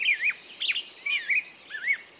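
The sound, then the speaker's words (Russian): Birdsong as natural wake-up sound: high, sweeping chirps and warbling phrases repeat in short bursts over a faint steady hiss, with no voices. “Вполне можно запись этой природной музыки себе и ставить как вариант. Просыпаться прямо под птичьи голоса.”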